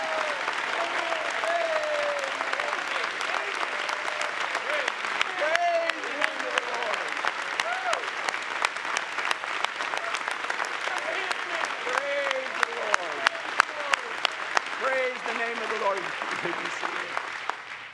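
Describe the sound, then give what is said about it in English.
A large crowd claps steadily for about eighteen seconds, with loud chatter and shouting voices mixed through the applause. “They're all jabbering and clapping and shouting. I've never heard so much noise in all my life.”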